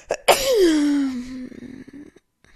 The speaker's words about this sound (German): Oh, ich glaube, ich muss niesen. Entschuldigung, Leute.